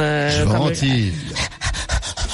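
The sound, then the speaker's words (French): A voice imitates a dog panting: a brief vocal sound gives way to a quick run of rhythmic, breathy huffs, loud and even in pace. “mais les chiens ne transpirent pas. Alors, comment font-ils? Alors, d'abord, ils ventilent.”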